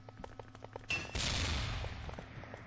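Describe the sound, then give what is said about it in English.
Gunfire from SR-8 rifles sounds during a competitive video game match. A few faint sharp reports come first, then a denser stretch of noisy firing, all fairly quiet. “As the match begins, we hear SR-8 firing in the background.”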